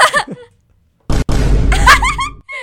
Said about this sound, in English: I love Vine Boom. Live, love Vine Boom. Shout out Vine Boom.